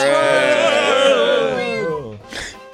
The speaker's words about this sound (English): That's a cat.